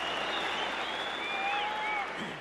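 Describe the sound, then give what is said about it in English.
Concert audience applauding, a dense and continuous wash of many hands clapping that stays loud and steady before easing slightly at the very end. “So there was another burst of clapping and laughter, and people remember that.”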